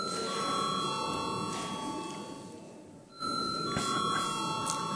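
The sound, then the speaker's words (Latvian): An electric bell rings continuously in a parliament chamber before a vote, a steady metallic jangle that dips briefly about midway and then resumes at full strength. “Lūdzu zvanu.”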